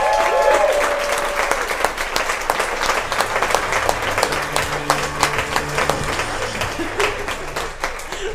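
Enthusiastic audience applause welcomes a comedian and author to the stage: dense, loud clapping sustained across eight seconds with sharp individual claps standing out.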